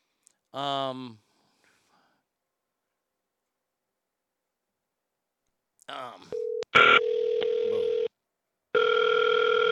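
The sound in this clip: Telephone tones as a prank call is placed, following brief talk: a short beep, then a sustained tone lasting over a second, a pause, and another steady tone.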